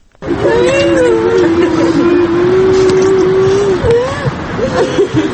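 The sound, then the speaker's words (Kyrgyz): Cars of a funeral procession in Bishkek driving by, a large hearse leading a line of smaller passenger cars. A loud, steady engine hum with a sustained droning tone continues throughout. “салт кылайык алдыда сөөк салынган чоң машина түшүп, артынан болсо жеңил машинелер чубап жөнөдү”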